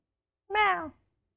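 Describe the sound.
A human voice imitates a cat's approving meow, the sound a cat makes while having its ears rubbed. It is a single clear, fairly loud meow of about half a second, alone, with a harmonic tone that dips slightly in pitch at the end.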